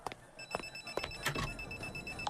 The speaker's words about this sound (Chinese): 哦，电话，你们接着聊。